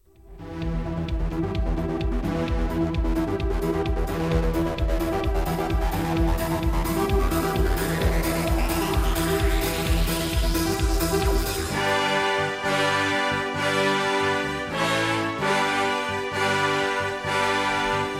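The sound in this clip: Music from a new musical project: driving band music with a steady pounding beat and a rising swept tone that builds through the first part, then shifts to loud, sustained full chords punctuated by sharp hits.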